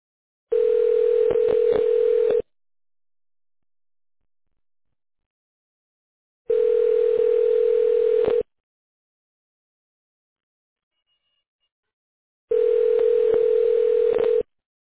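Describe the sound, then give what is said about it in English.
Telephone ringback tone while an office call is transferred to voicemail: three steady buzzing rings, each about two seconds long, separated by long, silent gaps. “May I put you through to her voicemail?”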